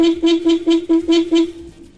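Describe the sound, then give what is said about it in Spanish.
Vehicle horn honking in many quick rhythmic toots at a steady pitch, loud and continuous, fading slightly toward the end. “¡Me tocaron el pito! Papi, tóqueselo otra vez, otra.”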